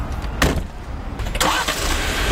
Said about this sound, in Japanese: ジープラングラーに乗って普段からよく行くポイントに向かいます。